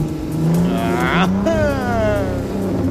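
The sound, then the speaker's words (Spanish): A GWM car engine accelerating, heard as a loud, steady drone whose revs climb and then shift, with no pause in the engine noise. “Así que mire, y escuche el motor en el que estaba montado”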